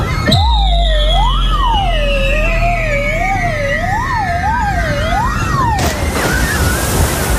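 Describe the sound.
Sound effect of a water slide ride with loops ending in a splash: a loud, wavering, siren-like whistle glides up and down over a low rumble, then cuts into a broad, hissing splash.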